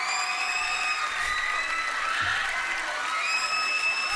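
A recorded stadium crowd roar, dubbed in as a Wembley-style crowd effect, runs as a steady, dense wash of cheering with high sustained whistling tones throughout, at an even moderate level with no breaks.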